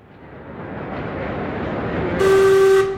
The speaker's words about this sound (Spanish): ¡Perdemos el tren! ¡Corred! ¡Corre! ¡Corre!